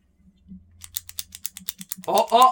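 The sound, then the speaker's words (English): A Thompson ballpoint pen with a ball action being clicked: a quick run of many crisp, evenly spaced clicks over a faint low hum, after which a voice starts talking. “That's a Thompson. With the ball action, click a pen. I think that's a 1989.”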